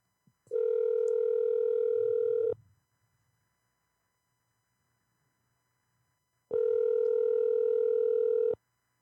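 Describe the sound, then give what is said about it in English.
A telephone call tone sounds while phoning an electrician: two long, steady, buzzy tones of about two seconds each, separated by a silent pause, with a faint click just before the first. “I'm going to call a different electrician.”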